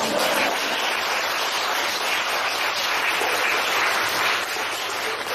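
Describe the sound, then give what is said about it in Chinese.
Applause from a live audience at a talk, a dense, steady wash of many hands clapping at once that holds at an even loudness for the whole stretch, with no voices standing out. “你如果你鼓掌了，再鼓了”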